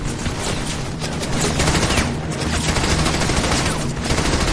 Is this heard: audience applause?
no